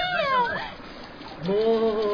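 A cat meowing, two drawn-out, wavering meows separated by a short pause, moderately loud over a low background murmur.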